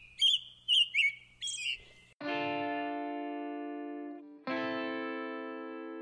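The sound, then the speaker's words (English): Short, bright bird chirps repeat a few times in quick bursts with brief gaps between them. Sustained electronic tones then follow, steady and humming, with a short break before a second long held tone. “I think I hear the birds calling.”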